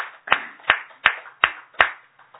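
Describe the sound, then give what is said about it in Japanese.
Clapping at a gathering celebrating a child's ninth birthday: five crisp, loud claps in an even rhythm, then a couple of fainter ones as it dies away, with no talk. “三綿さんのお孫さんのゆなちゃんが、まあ、9歳を迎えられましたので盛大な拍手でお願いします”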